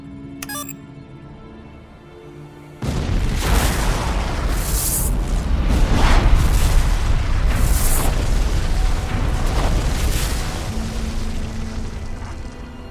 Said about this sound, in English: Okay, remote detonator's set. Here we go.